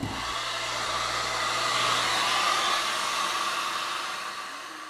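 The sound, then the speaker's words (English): A hair dryer blows steadily on gelled hair during a blow-dry, a loud, constant airy whoosh that runs for several seconds and eases slightly at the end. “after that I put moisture lock and now I'm running through it with gel. You won't stop moving your hair. Okay, blow dry.”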